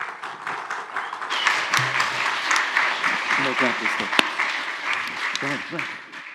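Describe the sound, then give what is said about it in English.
A church audience applauds to welcome a speaker during a morning service. The clapping is a steady, moderately loud wash that swells and then tapers, with a voice heard through it. “So can we do this? Can we put our hands together and welcome Brother Hang as he comes and delivers the word to us this morning?”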